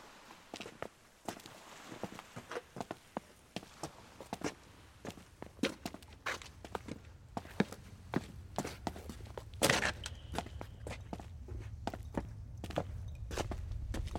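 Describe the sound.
Footsteps of people walking over: many crisp, uneven steps land in a steady stream, while a low rumble beneath them grows stronger midway and holds to the end.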